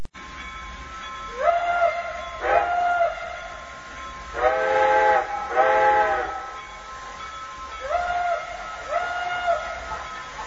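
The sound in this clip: A steam train whistle sounds as the train pulls into a station. About six loud, steady-pitched blasts come in pairs over a low rumble, and the middle pair is the strongest.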